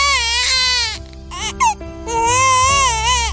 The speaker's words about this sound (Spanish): El llanto, el nacimiento de un bebé